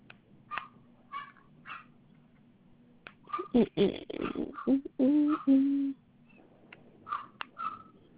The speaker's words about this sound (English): Sorry about the dog.